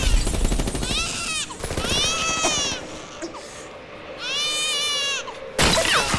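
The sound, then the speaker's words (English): Rapid bursts of automatic gunfire from a film battle scene in a shattered building, loud at the start and again at the end, separated by high, wavering wailing cries. “Luke is shooting from the corner.”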